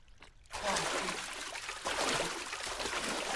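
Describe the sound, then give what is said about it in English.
Water splashing from a murky pool as a man gulps and splashes his face. After a brief quiet moment it bursts in loudly and continues as a steady, churning slosh that surges again midway. “He gulps greedily and splashes his face.”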